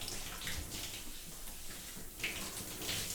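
Water poured and splashing while someone's back is washed in a bath, a soft, continuous rush and trickle with no breaks.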